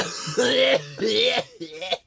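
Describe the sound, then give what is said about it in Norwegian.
A voice imitates a COPD smoker's cough, with three rough, rasping, voiced hacking bursts, the last one shorter. “Har du aldri hørt en god gammel kolshoste?”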